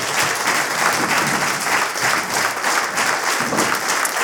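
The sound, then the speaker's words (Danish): An audience applauds to welcome a guest onto a live comedy show stage in Vejle, loud, dense clapping that stays even and sustained throughout, with no talk. “Giv en kæmpe stor hånd til en daglig leder af en swingerklub.”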